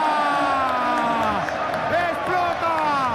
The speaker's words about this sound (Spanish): ¡Explota el Camp Nou! ¡Bailan los jugadores del Barcelona!